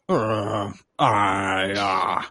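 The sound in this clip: A voice imitates a character's grunting and groaning in two long, drawn-out groans separated by a short pause. The second groan runs longer and stays strained and loud throughout.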